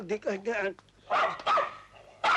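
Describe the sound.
A dog at a civil wedding ceremony barks a few times in short, sharp bursts, mixed with people talking.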